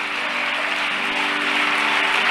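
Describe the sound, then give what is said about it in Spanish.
Church audience applauding as praise to God: a continuous, even wash of clapping at a steady level from start to finish. “Yo quiero que usted le dé un aplauso, pero de alabanzas a Dios.”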